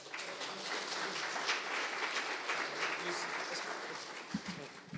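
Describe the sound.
A church audience applauds a guest speaker invited up to share: a steady patter of clapping at moderate loudness that holds evenly, then ends in a few low thumps near the close.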